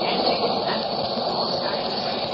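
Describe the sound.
A train moves along the rails, a steady, muffled rumble with a hissy wash above it, even in loudness throughout and with no voices.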